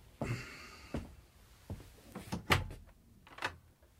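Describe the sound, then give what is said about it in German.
A door is opened after a knock, with a few faint wooden thuds and clunks spread unevenly across the moment, and a slightly louder knock-like bump in the middle. “Mein lieber Hedge, es hat geklopft. Habe ich gehört, Professor. Ja, und wollen Sie nicht öffnen? Schon unterwegs.”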